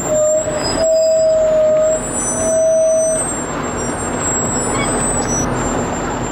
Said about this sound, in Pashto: د دیرش تنه ضربتي ټانک تورپلن ټیرونه او پسې لسګونه نور زغروال او شوبلې د لشکرګاه څخه د نهر سراج ولسوالۍ په لور ځي